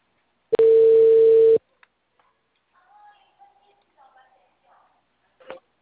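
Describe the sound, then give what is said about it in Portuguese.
A telephone tone heard while calling someone back: one steady mid-pitched beep lasting about a second, followed by faint clicks and soft murmurs on the line. “Vou ligar para ele de volta.”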